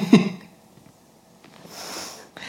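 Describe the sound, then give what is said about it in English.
A single short burp at the start, a low, throaty burst, followed by quiet and then a soft breathy hiss. “I'm a really good burper.”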